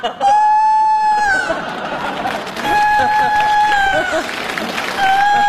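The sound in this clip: A rooster crows three times over crowd chatter and talk. Each sustained, strongly tonal call ends in a short downward bend, and the last call is cut off.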